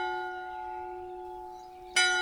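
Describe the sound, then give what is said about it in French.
A bell striking the hour in a convent: a sustained, humming metallic tone rings and slowly fades, then a fresh, bright clang strikes near the end. “Il va venir. Là. L'heure sonne.”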